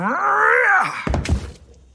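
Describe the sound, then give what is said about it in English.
A lit, carved jack-o'-lantern is smashed on Halloween: a long, low wavering groan gives way to a couple of heavy, dull thunks that quickly fade. “Why did you do that? Someone put it there. It was horrifying. You've destroyed a jack-o'-lantern on Halloween.”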